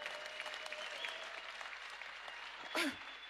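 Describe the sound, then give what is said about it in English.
An audience clapping, faint and steady, with many hands blending into a continuous patter and a brief louder swell near the end. “Look at even you. Even you're clapping.”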